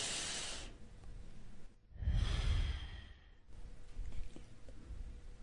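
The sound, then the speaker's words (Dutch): A deep breath drawn in through the nose and let out through the mouth during a guided breathing exercise: one long, loud, airy rush in the middle, with softer breathy hiss before and after. “En uit door je mond. En adem weer heel diep door je neus.”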